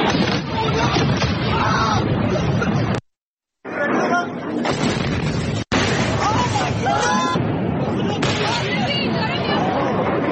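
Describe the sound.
Explosions from missile strikes on military bases and on 20-story buildings: rough, rumbling blasts and crashes mixed with a babble of voices, broken by a brief silent gap.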